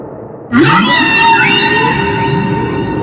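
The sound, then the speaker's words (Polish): Whales calling: a loud, sustained tonal cry rich in harmonics starts abruptly, opening with a low rising sweep, then holds steady for a few seconds. “Słyszysz? Wieloryby wołają o pomoc.”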